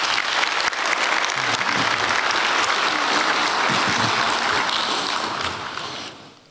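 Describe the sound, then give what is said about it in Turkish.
Applause from an audience at a club general assembly: dense, steady clapping from a large crowd, loud and continuous for several seconds before gradually fading out. “onlara kuvvetli bir alkış gönderelim.”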